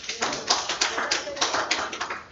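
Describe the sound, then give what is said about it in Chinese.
A church audience claps hands in a steady, fairly even rhythm, many sharp claps following one another at a moderate level with no talk on top. “Judy 啊，真的是我们要拍手”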